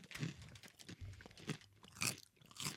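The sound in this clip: Tiny Flamin' Hot Cheetos balls crunched and chewed, several crisp, faint crunches in an uneven rhythm, each a short sharp crackle.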